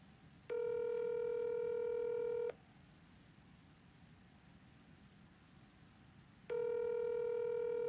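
Telephone tones sound on a landline call that cannot be completed as dialed: two long, steady, buzzy beeps, each about two seconds, separated by a quiet hiss-filled gap.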